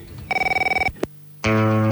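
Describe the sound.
A telephone rings in a rapid warbling trill of about a dozen pulses, followed by a sharp click and then a loud, steady buzzy tone with no voices.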